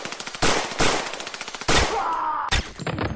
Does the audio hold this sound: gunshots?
yes

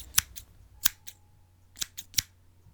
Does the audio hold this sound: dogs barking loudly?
no

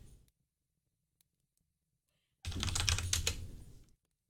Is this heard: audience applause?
no

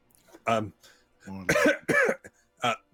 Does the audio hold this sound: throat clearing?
yes

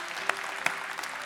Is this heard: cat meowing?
no

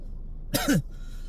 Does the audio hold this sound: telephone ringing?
no

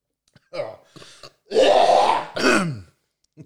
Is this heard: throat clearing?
yes

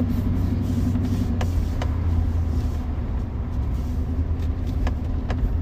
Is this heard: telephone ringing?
no

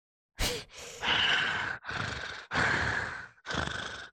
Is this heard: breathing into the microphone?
yes

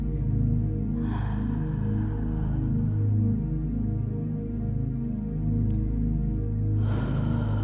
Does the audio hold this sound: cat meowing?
no

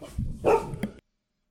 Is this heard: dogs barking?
yes

